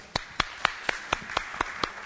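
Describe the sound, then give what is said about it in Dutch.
Clapping during a church service: nine sharp, evenly spaced claps in a steady rhythm, fairly quiet, with no voices over them. “Geef hem een applaus.”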